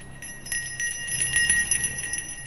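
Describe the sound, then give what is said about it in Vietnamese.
A shaman's ritual bell is shaken gently and continuously during a Then ceremony in a courtyard at night, giving a steady, shimmering high-pitched jingle with quick repeated shakes and no pauses. “Ông Then bắt đầu rung chuông niệm chú. Vừa rung chuông, ông ngân nga cất lên những tiếng hát then.”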